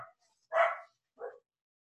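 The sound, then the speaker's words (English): A female dog barking at someone outside the house: two clear barks, a longer one and then a shorter one after a short pause, with quiet in between. “That's my dog going crazy in the background. Somebody must be outside of the house, and she is not happy about it.”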